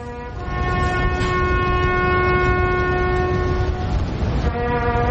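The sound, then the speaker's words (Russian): The Last Post bugle call plays for the lowering of the British flag at the governor's residence in Hong Kong, a loud, brassy, sustained tone held steadily with only brief breaks. “Вот сигнал к спуску британского флага в резиденции губернатора.”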